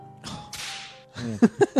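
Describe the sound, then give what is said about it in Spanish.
Whip crack sound effect: a breathy swishing whoosh, then a short pause and a few sharp, punchy bursts in quick succession, fairly loud. “Yo creo que eso merece un látigo.”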